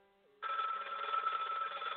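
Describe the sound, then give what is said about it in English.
A telephone rings for an incoming call-in, starting abruptly after a faint low hum and sounding as a continuous, bright, buzzing ring to the end. “Let's go ahead and bring in the very first phone call. Here we go.”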